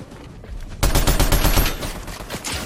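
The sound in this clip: Gunfire in a video game: after a quieter start, a loud burst of rapid automatic shots begins abruptly and continues steadily, with many fast reports, until the end.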